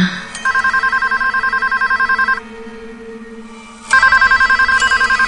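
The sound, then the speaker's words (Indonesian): A karaoke venue's telephone rings by the cashier's desk in two loud bursts of rapid electronic trilling, separated by a quieter pause. “tiba-tiba telepon karaoke ini menyala. Dan saat aku akan mengangkat”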